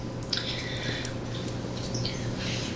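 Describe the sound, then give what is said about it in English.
Soft, wet squelching of squished tomatoes and their sauce being emptied out by hand, faint and irregular with a few small drippy splats. “Alright, all of my tomatoes are squished, and then you just empty out the sauce that's in there. I'm gonna use my hand because I have no shame, and neither should you.”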